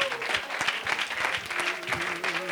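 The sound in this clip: Applause from a church audience welcoming a preacher to the pulpit: steady, dense clapping throughout, with a voice faintly over it.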